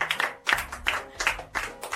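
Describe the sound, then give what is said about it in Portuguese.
Rhythmic clapping for a schoolgirl who answered multiplication questions, six broad, evenly spaced bursts of hands striking together in unison, fairly soft overall. “Palmas pra ela.”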